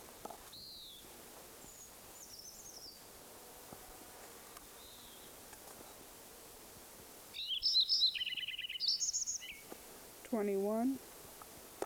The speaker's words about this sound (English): Lincoln Sparrow number one at Metcalf Farm Meadow continued.